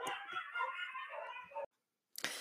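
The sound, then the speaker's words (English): Dogs barking and yipping together in a dense, continuous burst of overlapping calls lasting over a second and a half, then a short silence before another loud outburst. “You could hear the dogs in the background, most definitely.”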